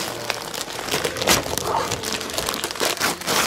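Gift wrapping paper being unwrapped in loud, continuous crinkling and crumpling, with denser rustling bursts scattered through the stretch and no talk.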